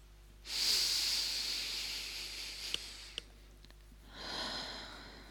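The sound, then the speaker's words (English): A deep breath drawn in through the nose, a long breathy hiss, then after a pause a shorter, softer exhale out through the mouth, heard alone with no talk. “taking a deep breath in through the nose and out through the mouth”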